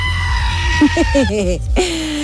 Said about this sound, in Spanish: Ponme a la cabra gritona. Otra vez.